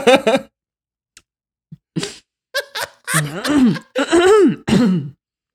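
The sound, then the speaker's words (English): Throat clearing from someone at one end of a table: a few rough, voiced bursts mixed with other vocal noises and brief talk. “throat clearing at the on the professor end of the table.”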